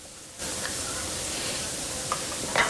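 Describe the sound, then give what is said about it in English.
Steady sizzling of chips frying and burgers cooking on a grill plate in a burger restaurant kitchen. The hiss begins abruptly after a short quiet lead-in and holds at an even level, with a few faint clicks near the end. “the messy-haired lad is frying chips and placing burgers on the grill plate.”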